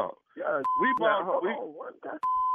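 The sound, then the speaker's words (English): Telephone tones sound as two steady, pure beeps of one pitch while a person talks around and between them. “Let me get my wife on. I need to get my wife on the phone.”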